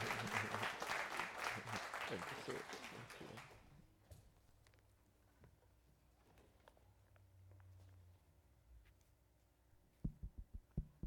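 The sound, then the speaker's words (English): Congregation applause welcoming a pastor: dense, loud clapping fills the first few seconds, then dies away to a quiet murmur, with a few soft thumps near the end. “Come on, put your hands together again. Let's welcome Pastor Jeremiah.”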